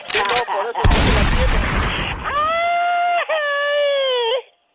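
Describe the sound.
A single pistol gunshot: a sharp, loud bang with a quickly decaying noisy tail, preceded by a short noisy burst and followed by a high, wavering, whine-like tone held for about two seconds before cutting off.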